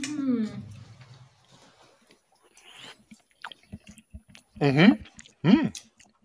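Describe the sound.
Someone eats a baked dish with a crust on the bottom, making soft chewing and small clicking mouth sounds. A voice comes in at the start and again near the end with a couple of louder vocal bursts.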